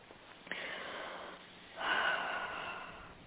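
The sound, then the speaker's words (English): A deep breath taken during a guided meditation: a soft, airy inhale followed by a fuller, rushing exhale, quiet and heard without talk. “And take a deep breath.”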